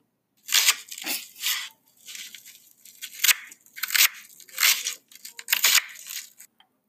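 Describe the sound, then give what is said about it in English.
Knife cutting through a frozen vegetable: a series of crisp, bright crunches and crackles in uneven bursts with short pauses between them, fairly loud and with no talk. “Now let's cut the frozen one and see if it is as bad.”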